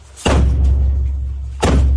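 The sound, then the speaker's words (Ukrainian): SBU counterintelligence officers banging on an apartment door in Zaporizhzhia: two heavy, booming thuds with a rumbling low tail, about a second and a half apart, loud and alone. “У двері запорізької квартири гримає контррозвідка СБУ. Співробітники Служби безпеки знають, напевне, господар удома. Відчиняйте двері, Служба безпеки України. Утім, чоловік усередині зачаївся, тож не лишив силовикам вибору.”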